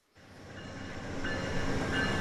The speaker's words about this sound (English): It's 11:30 a.m. when the daily Amtrak train pulls in about 13 minutes late to Lewistown Station.